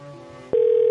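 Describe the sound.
Telephone ringing: a low buzzing hum cuts to a loud, steady electronic tone that holds to the end.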